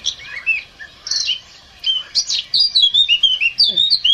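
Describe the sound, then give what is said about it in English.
Sci-fi robot droid beeping and whistling that resembles a blackbird's song: many rapid, high warbling chirps and whistles in quick bursts, heard alone. “that sounds like a blackbird. You're almost right. Yeah, it's actually R2-D2. It does sound like R2-D2.”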